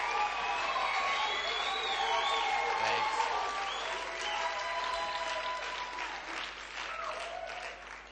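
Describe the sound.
Church audience on its feet applauding to welcome a pastor: dense, steady clapping with crowd noise runs unbroken through the whole stretch, loud and even.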